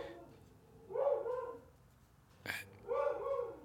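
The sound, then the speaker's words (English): A dog next door gives two short, tonal barks separated by a sharp click. The barks are moderately faint and heard on their own, without talk. “Sorry about the dog. There's a dog next door.”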